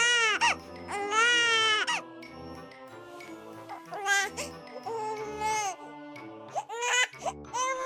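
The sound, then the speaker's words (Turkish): A crying sound effect in a children's story: high, wailing sobs in several rising and falling bursts over a soft low background. “Sesin geldiği tarafa doğru kulaklarını dikmiş. Bu bir ağlama sesiymiş.”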